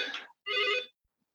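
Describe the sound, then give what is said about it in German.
An office telephone rings in a meeting room, giving two bright electronic trill bursts separated by a short gap, followed by silence. “Nee, ich bin in einem Meetingraum und hier klingelt gerade das Telefon, aber nicht für mich.”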